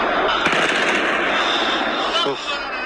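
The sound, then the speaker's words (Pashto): Kalashnikov rifle gunfire from armed men shooting at the Buddha statues in Bamiyan: dense, crackling bursts of shots under loud voices, continuing throughout. “په ټولنیزو رسنیو دی خبری سوی ویډیو کې ښکاري چې شاوخوا لس کسان د بیلابیلو اړخونو د بودا په مجسمو د کلاشینکوف ډزې کوي.”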